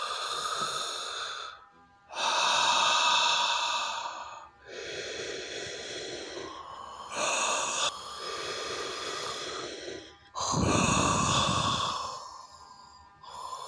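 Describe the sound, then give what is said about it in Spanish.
Deep breathing through an open mouth, filling the stomach with air, during a relaxation exercise: several long, breathy inhales and exhales in a slow, even rhythm, each separated by a short pause, with no talk. “Empieza a inhalar y exhalar profundamente. Eso es. Concéntrate en la respiración.”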